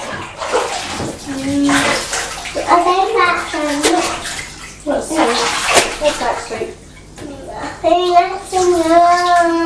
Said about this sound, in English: Are you washing my arm?